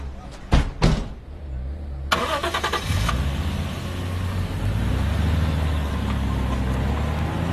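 A car door clunks a few times, then the car's engine cranks briefly and catches, settling into a loud, steady running rumble.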